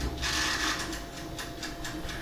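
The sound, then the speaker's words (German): A mechanical timer ticking inside a pizza oven: a faint run of regular, evenly spaced clicks over a low, steady hum. “Man hört das Ticken des Ofens. Na, wie altmodisch, noch so eine mechanische Uhr da drin.”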